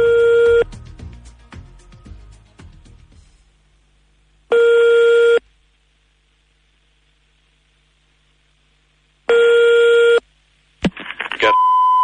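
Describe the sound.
Ringback tone of an outgoing telephone call: long steady buzzing rings separated by stretches of silence, followed by a few sharp clicks and a brief higher tone at the end.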